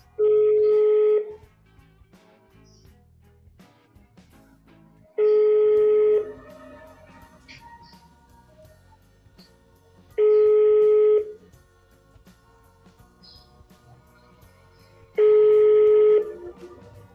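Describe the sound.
Ringback tone of an outgoing phone call sounds as four evenly spaced beeps, each about a second long, at a steady mid pitch. They come roughly five seconds apart over a faint, low background.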